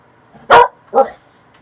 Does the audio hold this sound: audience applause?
no